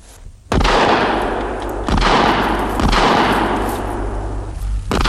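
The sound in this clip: A rifle shot during a chamois hunt: one sharp, loud crack bursts out after a brief quiet moment, then a sustained rumbling wash with a few weaker cracks inside it that lasts to the end.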